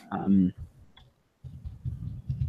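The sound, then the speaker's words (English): Quick, irregular clicks of typing on a computer keyboard, starting after a short voice and a brief silence, a dense run of light taps that continues to the end. “Oh my gosh. I can't type suddenly.”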